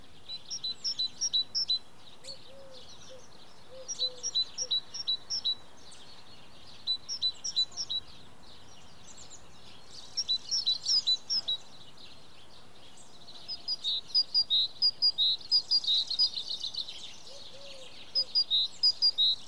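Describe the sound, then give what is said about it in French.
Birds sing in spring countryside on a high plateau, producing repeated bursts of high, rapid chirps. The phrases come in many short groups separated by brief pauses, over a faint, steady background. “le silence de la nature, les oiseaux, les mouches qui volent.”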